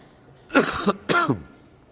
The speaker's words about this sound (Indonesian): Saya mohon maaf nanti kalau saya batuk, kasih waktu.